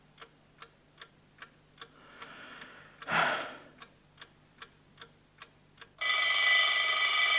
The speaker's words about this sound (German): Na also. Es war gekommen. Es war der Wecker auf dem Nachttischchen. Auf ihn hatte ich gewartet.